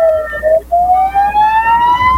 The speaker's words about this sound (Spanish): Levantan la mano, encienden las ambulancias